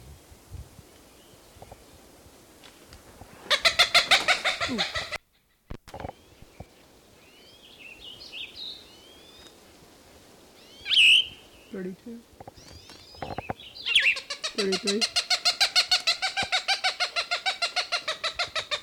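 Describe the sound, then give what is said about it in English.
A Cooper's Hawk calls excitedly near its nest: two loud bursts of rapid, harsh, evenly repeated notes, with a few shorter chirps and sharp calls scattered in the quieter gap between them. “Cooper's Hawk, very excited, must be near a nest.”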